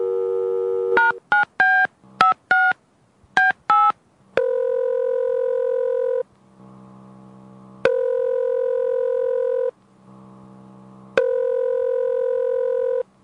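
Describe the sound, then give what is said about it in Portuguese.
A telephone number is dialled to place a call: a brief dial tone, then a rapid run of clear keypad beeps, followed by three long, steady ringing tones separated by pauses. “Deixa ligar pro Victor também.”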